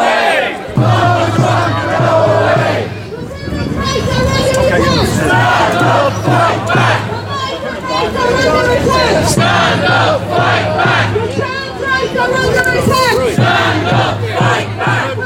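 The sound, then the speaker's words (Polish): A protest crowd chants at a demonstration held during Donald Trump's visit: a loud, continuous mass of voices with rhythmic, pitched shouting that swells and repeats throughout. “Donald Trump, jego wizyta, posłuchajmy jeszcze przez chwilę tych dźwięków, które Tomasz wczoraj zarejestrował podczas tej manifestacji.”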